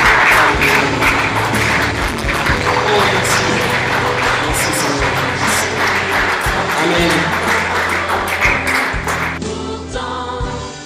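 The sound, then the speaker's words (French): A church audience applauds and cheers, a dense, loud wash of clapping and raised voices with a low sustained musical tone underneath, thinning slightly toward the end. “Que quelqu'un acclame le Seigneur.”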